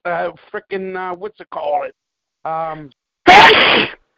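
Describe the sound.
A single loud, explosive sneeze bursts out right after a man speaks a few short phrases, sharp and noisy and lasting under a second.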